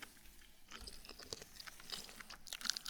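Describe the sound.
Crunchy stem wakame seaweed being chewed: many crisp bites and crunches in an irregular rhythm, fairly quiet, with no talking.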